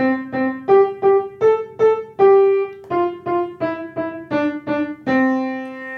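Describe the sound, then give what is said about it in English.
A children's melody, Twinkle Twinkle Little Star, played in the Ionian mode: fourteen clear, evenly paced notes climbing then stepping back down, with two longer held notes closing each phrase. “So this is our traditional Twinkle Twinkle Little Star, played in the Ionian mode.”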